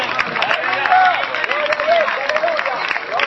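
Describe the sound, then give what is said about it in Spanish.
A worship audience at a church service applauds with lively clapping from many hands while raised voices sound over it at a fairly loud, steady level. “Dele fuerte ese aplauso al Dios de la gloria, hermano.”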